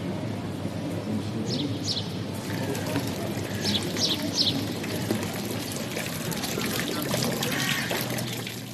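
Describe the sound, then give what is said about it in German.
The river Aare flows lazily through Solothurn's town centre on a spring day, a steady trickling, pouring wash of water with a few brief, high chirps above it. “So tönt es an einem schönen Frühlingstag in Solothurn gerade an der Aare, wo an diesem Tag ein bisschen faul durchs Stadtzentrum fließt.”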